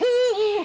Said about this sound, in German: Das ist der Uhu.